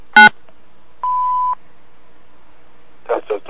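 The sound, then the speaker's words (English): An answering machine gives a single steady electronic beep, about half a second long, before a greeting is recorded. A short burst of sound comes before it, and a voice starts briefly afterward. “Record greeting after the beep.”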